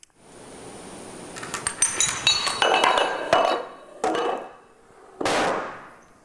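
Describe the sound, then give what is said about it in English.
Dominoes topple in a chain of 13, each block able to knock over one half again its size. A rapid run of sharp clacks grows louder, then two heavier knocks follow, each with a brief decaying clatter. “Boom. Boom. That was 13 dominoes.”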